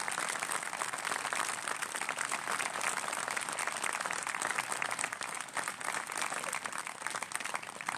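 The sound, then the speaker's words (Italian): Sustained audience applause at a tribute to an author and teacher, a continuous, even patter of many hands that holds steady at moderate loudness throughout. “chiedo da parte mia, ma lo fate voi per favore, un nuovo applauso per tutte le persone che ha nominato già Renzo”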